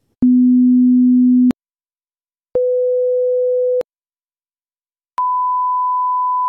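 Three pure hearing-test tones play through headphones, each a steady beep lasting over a second with silent gaps between. Each tone is higher in pitch than the one before, and all are clean and loud.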